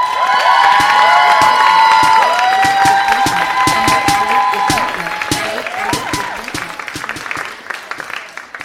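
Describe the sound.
Loud audience applause and cheering at a stand-up comedy show as one comic leaves the stage and the next is introduced. Dense clapping mixes with whoops and whistles, then gradually thins and softens toward the end.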